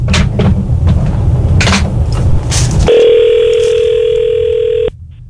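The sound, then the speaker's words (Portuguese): An outgoing telephone call is placed. A few sharp clicks and rustles sit over a steady low hum, then a loud, long ringing tone holds for about two seconds and cuts off abruptly. “Ligar pra ele de novo, mano. Ah, chamou.”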